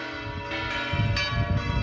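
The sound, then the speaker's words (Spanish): Church bells ringing on a saint's feast day, metallic strokes whose bright overtones ring on and overlap into a sustained clanging wash, steady in level with no voices. “Mirad cómo tocan las campanas en el día de San Isidro.”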